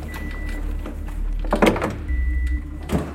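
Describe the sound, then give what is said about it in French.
Mobile archive shelving in a warehouse rolls open as a hand wheel is turned, giving a low grinding rumble with a few clunks and knocks along the way. “Alors, je vais ouvrir un compactus, l'un de ces rayonnages mobiles qu'il y a absolument partout dans l'entrepôt. Je tourne un volant et j'ouvre une nouvelle allée.”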